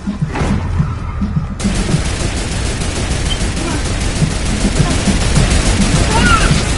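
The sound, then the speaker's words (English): Turret gunfire in the Fortnite video game: a loud, dense stream of rapid shots that starts with a few heavy thuds and then runs on as a continuous rattling volley to the end. “Stay on the turret. I'll protect you.”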